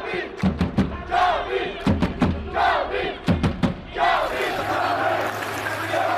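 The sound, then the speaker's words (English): A loud crowd of esports fans at an Esports World Cup match roars like a football crowd, shouting in unison over sharp rhythmic beats before settling into a sustained, dense roar. “I wasn't joking when I said the noise in here was like a football match. Just to listen to that atmosphere.”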